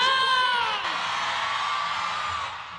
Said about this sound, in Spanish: Quiero escuchar ese grito de todas las mujeres hermosas de aquí, del pueblo de San Juan de Aragón. Va. A la una, a las dos, a la tres, ¡ese grito